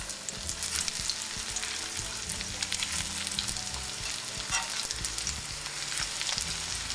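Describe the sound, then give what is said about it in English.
Eggplant slices frying in oil in a pan make a continuous soft sizzle, with many small crackles and pops scattered through it at a fairly low, even level. “Add a little bit more oil. continue until all the eggplant slices are used up.”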